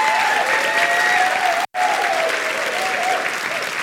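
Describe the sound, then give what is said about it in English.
Loud, sustained audience applause and cheering for a group of students, with many hands clapping evenly, briefly cut by a momentary gap of silence before resuming. “So, give it up again for these students, would you? Give it up for them.”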